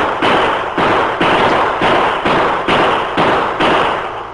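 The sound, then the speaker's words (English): Gunshots fired from the top of a rock butte: a rapid, evenly spaced series of loud, harsh blasts, each running into the next with no quiet between them. “The masked man was only a few feet away, firing at something or someone below him.”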